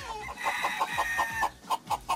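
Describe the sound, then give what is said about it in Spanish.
Hens clucking in a steady run of many short, rhythmic clucks, moderately loud with a throaty, nasal tone and no other sounds competing. “estaba diciendo pues que esas gallinitas le recordaban algo”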